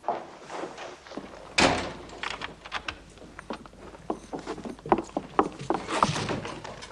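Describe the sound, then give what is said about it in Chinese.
A door is shut with a single sharp thud, followed by many small, faint clicks and rattles as it is locked. The sound is fairly quiet overall. “你把门锁上。”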